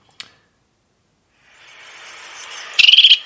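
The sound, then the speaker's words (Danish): A great tit calls in a garden, giving a quick run of about six high, bright notes at the end, after a single soft click and a faint hiss. “Men det er også en musvit. Så den lyder både sådan her. Det er altså lidt mere sang,”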